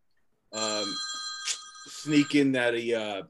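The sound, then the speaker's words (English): A mobile phone ringtone goes off, a steady set of high bright tones that keeps sounding for a few seconds while people talk over it. “Oh, don't tell me that was your phone. It was, but I don't know why. I got it. We only have 100-something shows, and you don't know to turn your ringer off.”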